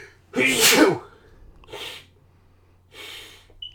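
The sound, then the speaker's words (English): A loud, breathy human sneeze bursts out first, followed by two softer, shorter breathy exhalations spaced a second or so apart, with no talking over them. “Hold on a second. I got the sneezes.”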